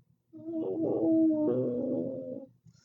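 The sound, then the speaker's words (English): A human voice imitates a slug with one drawn-out, wavering, whining groan lasting about two seconds, moderately loud and alone. “That was my attempt at a slug noise.”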